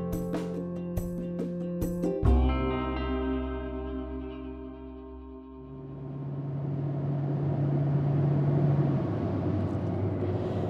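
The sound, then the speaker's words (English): A car driving along a road through Folsom in Northern California gives a steady engine and road rumble. It swells after a quieter, tonal opening and stays loud to the end. “So we just passed through Folsom. We're driving through.”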